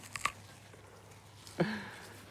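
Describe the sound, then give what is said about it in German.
Teeth bite into a juicy Swiss Wasserbirne perry pear with slightly fuzzy, astringent skin: a couple of faint crisp crunches, then a louder, wetter bite, all alone without talk. “Das ist eine Mostbirne. Also die hat so ein bisschen pelzige. Also beiß mal rein.”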